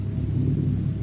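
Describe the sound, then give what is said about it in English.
Low, steady thunder rumbles on without a break, a deep, dense roll that holds an even loudness throughout the short moment, with no voices over it. “Can't you hear that thunder? You'll perish with me.”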